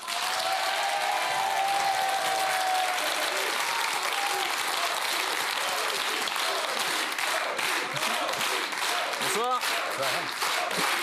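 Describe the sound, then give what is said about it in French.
A studio audience applauds an actor on a French TV show: dense, steady clapping that fills the whole stretch at an even loudness, with a voice faintly audible under it early on. “Nous allons applaudir le comédien Génial Idée.”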